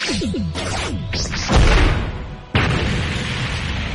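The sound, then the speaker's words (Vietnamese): A deafening explosion effect in a fantasy battle with fire and clashing blades: quick whooshing sweeps lead into a heavy low boom, then a second sharp crash that leaves a loud, sustained rumble. “tiếng nổ đinh tai nhức óc truyền ra.”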